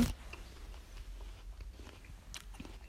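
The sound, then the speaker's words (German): A person eating an apple makes a sharp bite at the start, then steady, repeated moist crunching chews at a moderate level. “Sorry, Leute, ich esse... verbleibende ist nicht. Hallo. Äh, ich esse Apfel. Sorry, Leute.”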